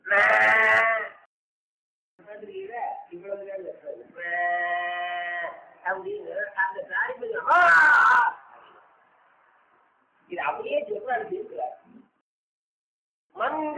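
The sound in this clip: Calf crying for its mother, calling louder when hungry: a few drawn-out, harmonic bleating cries break in between stretches of speech, one loud sustained call standing out near the middle.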